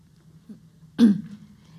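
A single short throat clearing: a brief rough burst that stands alone against a faint low background hum, with a softer small sound just before it.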